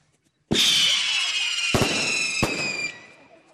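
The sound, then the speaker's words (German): Fireworks go off in a pyro show at a sports club ceremony in Kühnheide. A sudden squealing whoosh and crackle starts the display, two sharp bangs punctuate it, and it fades away. “Sie merken, wir sind in Kühnheide und da gehört eine Pyroshow natürlich immer dazu.”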